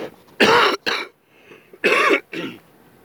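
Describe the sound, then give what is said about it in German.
Dry, irritated coughing comes in four harsh, loud bursts grouped in two pairs, with short quiet gaps between them and no speech. “Oh, ich glaube, mir, mir kommt gerade der Reizhuste hoch.”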